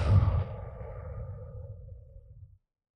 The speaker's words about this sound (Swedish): Ta ett djupt, djupt, djupt, djupt andetag. Och sen ut.